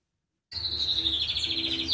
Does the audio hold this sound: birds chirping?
yes